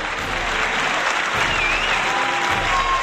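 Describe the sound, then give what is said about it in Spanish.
Sustained crowd applause, an ovation for Spain's women's basketball team after winning the European championship for the third time, steady and loud throughout with no breaks. “Ovación para estas chicas,”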